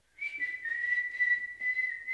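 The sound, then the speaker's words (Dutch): A woman whistles a simple tune, a thin, steady high tone held almost level with slight wavering and a few brief breaks, alone without talk. “Ze probeerde iets te fluiten, net zoals haar vader dat vroeger deed toen ze samen wandelden.”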